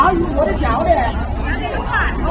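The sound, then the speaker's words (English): Crowd chatter at an outdoor Wuhan COVID nucleic acid testing site, a steady, dense murmur of many overlapping voices with no single speaker standing out. “So this is the sound of a testing site.”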